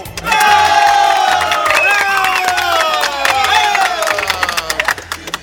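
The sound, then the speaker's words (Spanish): An audience at a comedy show cheers and applauds loudly, with a sustained roar of shouting voices and dense clapping that thins out at the end into scattered claps. “muchas gracias por esos aplausos.”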